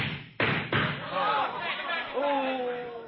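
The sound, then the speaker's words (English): Two sharp gunshot sound effects in an old radio comedy crack out in quick succession, hard and abrupt, with a man's voice talking over and after them. “I'm a-drawing my gun, Harris. Look out. I'm a-shooting mine. Take that.”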